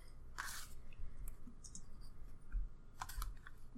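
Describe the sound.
Sparse clicks of computer keyboard keys as ten-sided dice results are typed in, a few soft scattered presses separated by pauses, with no talk.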